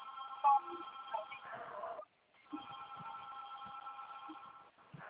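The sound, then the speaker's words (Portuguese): Telephone ringing with an incoming call from a bank: a faint, steady electronic ring in two long bursts separated by a short pause. “É o Banco do Brasil, me ligando.”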